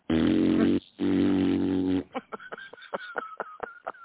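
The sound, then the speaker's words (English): A voice imitates a child's fart inside rubber pants: two long, steady buzzing blasts, then a string of many short, sputtering pops that trail off in uneven rhythm. “Okay, so the kid farted. Now he's got rubber pants that are going.”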